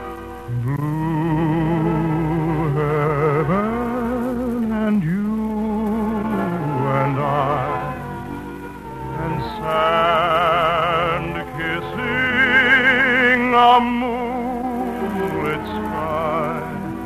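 Romberg operetta music from a 1952 film version, a sung melody with rich vibrato over a full orchestral accompaniment, sustained and steady in loudness throughout.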